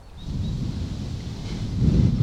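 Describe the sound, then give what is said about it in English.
A person blows into a microphone fitted with a furry windscreen to imitate wind, producing a steady, muffled low rumble that swells slightly toward the end. “as you can see, I've attached the dead cat muff here, and now we're gonna continue with the experiment. I'm gonna blow into it like if I was the wind.”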